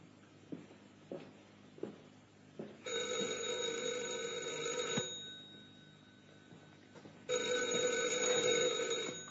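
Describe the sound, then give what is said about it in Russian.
A telephone rings at home in two long, shrill bursts separated by a pause, preceded by a few faint taps. “Это Тамара, возьми трубку и скажи ей все сам”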